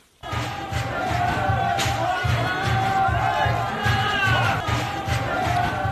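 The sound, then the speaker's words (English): Hundreds of supporters of impeached South Korean president Yoon Suk-yeol shout and roar as they storm the Seoul Western District Court after a judge extended his custody. The dense, continuous crowd noise is loud, with a pulsing low chant underneath. “That is the sound of hundreds of his supporters storming the Seoul Western District Court after a judge”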